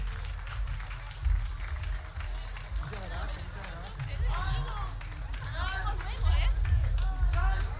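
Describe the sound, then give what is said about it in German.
Crowd applause at a lively fiesta-style event, a steady wash of clapping and crowd hubbub that swells toward the end, with loud talk running over it throughout. “Yeah, da ist ein Applaus für euch. Dankeschön.”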